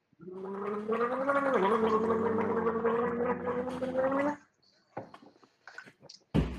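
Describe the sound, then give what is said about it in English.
Someone gargling a shot of drink: a steady, voiced, bubbling gargle that holds for about four seconds, then a few short, faint sounds. “We gargle? You guys gargle it or no?”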